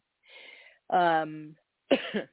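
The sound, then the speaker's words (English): Coughing from a person recovering from COVID: a few short, rough bursts of throat sound, one carrying a voiced, rasping tone, each separated by brief silence. “I apologize for sniffing and coughing. I'm actually trying to recover from having COVID.”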